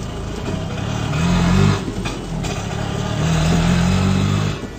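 An auto rickshaw's small engine runs on a crowded road during the festival season, its drone swelling twice into louder revving stretches over steady traffic noise.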